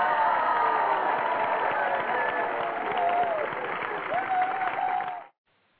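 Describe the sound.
An audience applauds and cheers, with a dense, steady clatter of clapping and a few rising whoops. The noise stays strong throughout and then cuts off abruptly near the end.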